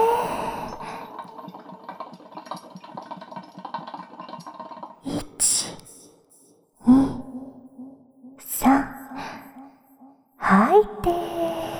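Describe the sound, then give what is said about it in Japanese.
Breath sounds during a guided breathing exercise: a few separate breathy bursts in the second half, heard over a soft sustained tone. “これでラストだよ。吸いすぎちゃダメだからね。 それじゃあ行くよ。吸って。”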